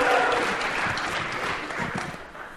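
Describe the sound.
Audience applause welcoming a speaker to the stage: dense, steady clapping that stays loud throughout and eases slightly near the end.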